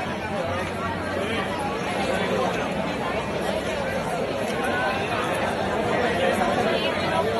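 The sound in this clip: A crowd of young people gathered outside a university economics and business faculty at night, heard as a dense, continuous babble of overlapping chatter that holds steady throughout.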